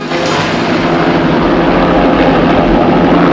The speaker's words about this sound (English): The three men out of the car arrive at the jetty just as the helicopter takes off from the water.